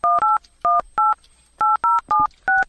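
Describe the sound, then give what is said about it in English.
A telephone keypad is dialed for an outgoing call, producing eight short, clean electronic tones in irregular groups, with brief silent gaps between them and no voices. “Dialing. We are dialing Josh.”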